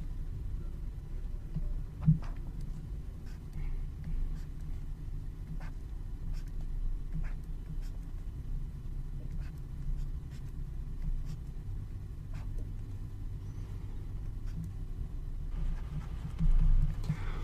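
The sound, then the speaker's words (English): Pen drawing on a board during a biology lecture on the steroid backbone: faint, irregular taps and short scratchy strokes over a low steady hum, with no talk. “So let me draw that.”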